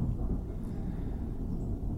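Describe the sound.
A thunderstorm rumbles as a low, dense and continuous roar with no distinct cracks or separate claps, steady in loudness throughout.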